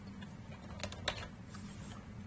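A few light keystrokes tap on a computer keyboard as a digit is entered into code, faint, quick taps bunched together over a low, steady background hum.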